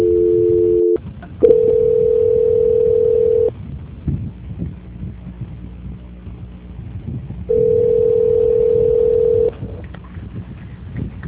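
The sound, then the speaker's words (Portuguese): Telephone transfer tones on a call line: a brief tone opens, followed by two steady mid-pitched ringing tones of about two seconds each. Between them, a low murmur of line noise fills the gaps. “Vou derrubar a ligação, vou te mandar o lag aí. Valeu? Oi? Eu vou te transferir a ligação.”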